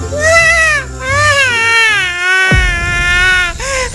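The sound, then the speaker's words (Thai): A voice imitates a young snail bursting into loud crying in a children's story: sustained, high wailing sobs with wavering, gliding pitch, loud and continuous throughout. “หอยทากจึงได้ร้องโฮออกมา”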